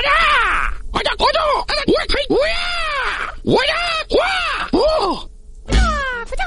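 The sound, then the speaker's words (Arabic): Video game voice cries of the fighting character Marshall Law: many loud, sharp yelps and shouts with arching pitch. They come in quick bursts separated by brief gaps, with no talk around them. “نتكلم على شخصية تحمل اسم مارشال لاو. بنشغل صوت كذا وحاول انك تركز بالصوت يا صديقنا الجميل عشان تتعرف على هالشخصية.”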